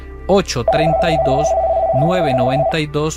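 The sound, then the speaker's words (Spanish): A steady electronic telephone tone signals an incoming call. It holds at an even, mid-high pitch for about two seconds beneath a person talking. “Tenemos una llamada”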